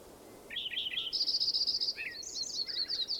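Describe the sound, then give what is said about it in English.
Birds calling in a steady run of high, bright chirps and short trills that repeat for about three seconds, moderately loud over a faint background hiss, with no voices. “More birds in there.”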